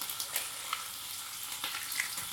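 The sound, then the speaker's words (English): Tomato halves sizzle quietly in a pan, a soft, steady frying hiss broken by a few small crackles and pops. “And I roast the tomatoes. I sliced them in two halves.”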